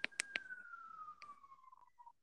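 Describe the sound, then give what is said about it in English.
A faint siren tone glides slowly downward for about two seconds, punctuated by a few sharp clicks. “you have to have a siren go off at the end. I did not hear that until right now.”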